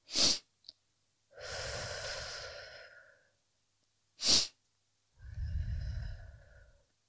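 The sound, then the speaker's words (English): Breathing in two cycles: each begins with a short, sharp inhale, followed by a long, soft, airy exhale that fades out, all at a quiet level. “Now, short inhale, long exhale.”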